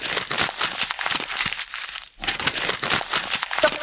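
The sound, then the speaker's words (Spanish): A sheet of paper is crumpled in continuous crisp crinkling and crackling, with a short pause midway before the crushing resumes. “¿Arrugar un papel? Muy bien, sí, señor.”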